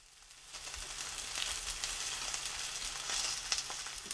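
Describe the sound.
Sardines fry in a pan over medium heat, a steady, bright sizzle and crackle that holds at an even level throughout with no talking.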